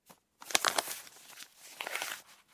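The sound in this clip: Paper rustling and crinkling as an envelope holding a cash retainer is handled and passed over. A few soft shuffles and crackles come in two quiet bursts, with no talk.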